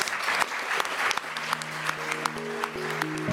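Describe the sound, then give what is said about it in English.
Audience applause at an LSE event, dense steady clapping with a few sharper claps standing out, joined partway through by sustained musical tones. “And thank you to the audience. So can we give one more round?”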